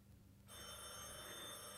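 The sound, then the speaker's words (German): A telephone bell in a 1930s German home starts ringing after a brief quiet moment, a bright metallic jangle held to the end, faint and with no voices. “Telefon.”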